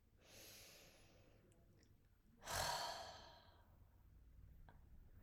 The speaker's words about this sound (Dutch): En adem maar een keer diep in en uit.